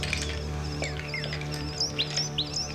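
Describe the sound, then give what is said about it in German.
Small birds chirp excitedly as thick smoke rises from a burning hut, a few quick high tweets and short sweeping calls scattered over a steady low hum. “die kleinen Vögel begannen aufgeregt zu piepsen”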